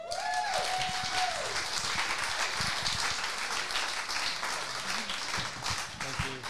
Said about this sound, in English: So please welcome to the stage, Jon Owen.